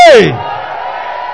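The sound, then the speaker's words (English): A church audience shouts praise at a miracle healing and impartation service: one loud yell with a falling pitch opens, then a sustained roar of many voices carries on steadily. “If you are excited about August Miracle Healing and Impartation Service, you will give the Lord a shout of praise. Come on, shout glory.”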